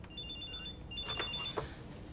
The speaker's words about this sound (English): She gets her ringing mobile phone out of her handbag.